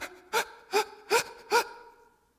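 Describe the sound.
A voice imitates a child who has cried so hard it can't catch its breath. It makes four sharp, voiced gasps at an even rhythm, each a short strained intake, before trailing off into quiet.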